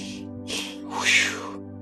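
A preacher takes sharp breaths in through the nose during a healing prayer. A few breathy bursts sound, the last and longest the loudest, over sustained musical tones that hold underneath throughout.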